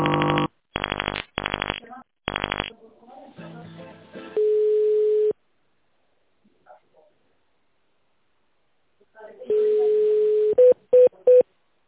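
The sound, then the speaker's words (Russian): Touch-tone dialing and line tones on a call into the automated phone system of a plastic pipe manufacturer. Several buzzy tone bursts come first, then a steady held tone, a long silence, the tone again, and finally three short beeps. “Если вы знаете добавочный номер сотрудника, наберите его в тоновом режиме. Или оставайтесь на линии.”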